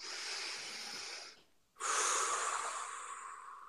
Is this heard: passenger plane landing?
no